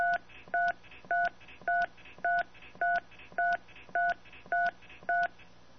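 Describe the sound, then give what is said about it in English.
Touch-tone dialing on a phone keypad as a telephone number is entered for an automated account system: nine crisp dual-tone beeps in a steady, even rhythm over a faint hiss of line static. “Please enter the area code and telephone number of the account you are calling about.”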